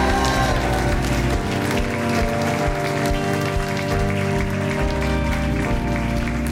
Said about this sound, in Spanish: Iglesia, un aplauso fuerte, please. Let's put our hands together, church. Come on, rejoice.